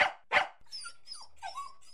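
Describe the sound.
A small dog barks twice in quick, sharp bursts, followed by quieter, high-pitched sounds.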